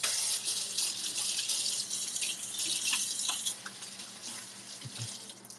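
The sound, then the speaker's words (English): Hands are washed under a running water tap: a steady, hissing stream of water flows throughout, with slight splashy variations as the hands move, growing a little softer toward the end. “I need to wash my hands.”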